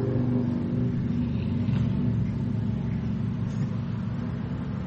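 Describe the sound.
Racing cars at a speedway roar past in a steady, loud engine rumble with a slight revving surge, continuous throughout with no clear breaks and no voices.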